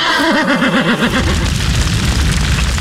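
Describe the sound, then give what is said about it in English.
A horse of the Nashua Police Mounted Unit lets out a loud, quavering whinny lasting about a second, followed by a low rumbling noise. “The Nashua Police Mounted Unit, serving the community one hoofbeat at a time.”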